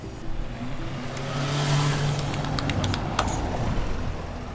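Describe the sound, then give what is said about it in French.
A taxi drives past on the rue de la République in Marseille, a street closed to cars apart from buses. Its broad engine rumble swells and fades over steady street noise, and a few faint clicks follow. “Ah, il y a un taxi.”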